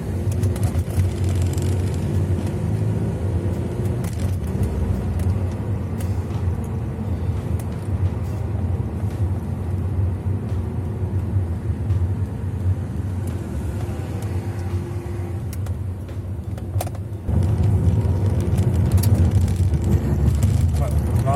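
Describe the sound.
An Audi car driving through town at about 50 to 60 km/h: a steady low rumble of engine and tires throughout, growing a little louder near the end.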